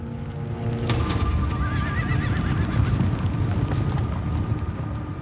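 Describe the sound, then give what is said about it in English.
Horses of Pharaoh's horse-drawn chariots approaching: a horse neighs with a wavering whinny over a continuous rumble of pounding hooves, the loudness staying steady and full throughout. “Moses, do you see? It's Pharaoh's chariots. And closing fast.”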